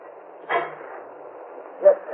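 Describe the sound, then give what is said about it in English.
A gate is shut in a radio drama sound effect, heard as two muffled knocks a little over a second apart, the second slightly sharper. A soft hiss runs underneath. “Yeah, just as soon as I close the gate. This time I'll make sure it stays closed.”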